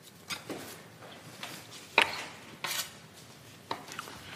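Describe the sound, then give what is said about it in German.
A knife cuts coriander in a few soft, irregular chopping taps, one sharper and louder than the rest, fairly faint against a quiet background. “Ich schneide noch mal so ein bisschen was weg.”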